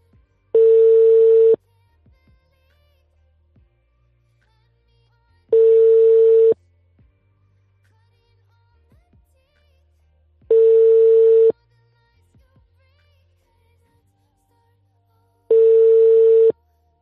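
Ringback tone of an unanswered phone call: four steady one-second beeps, evenly spaced about five seconds apart, with near silence and faint low noise between them.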